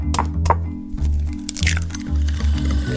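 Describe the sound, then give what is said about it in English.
Eggs cracked into butter and sugar while making cookie dough, giving a few sharp cracks and wet squishing sounds against a steady low background. “You add some butter, and then some sugar, crack in some eggs.”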